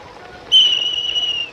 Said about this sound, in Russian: Вот свисток у вас. Дайте, пожалуйста.